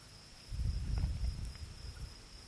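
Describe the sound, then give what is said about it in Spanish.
Crickets chirp at night in Cadaqués with a thin, steady high trill that holds throughout, over a faint low rumbling background. “Suenan los grillos y unos débiles tambores en la lejanía.”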